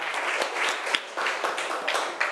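Applause from a group of people for a group's representative who has just answered a question: steady, fairly loud clapping from many hands, dense and unbroken, with no talk over it.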